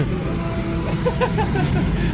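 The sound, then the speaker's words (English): A car with either a V10 or a V8 engine drives along, its motor giving a steady, continuous low rumble with faint higher tones drifting above it. “This either has a V10 or a V8 in it. It's one of the two.”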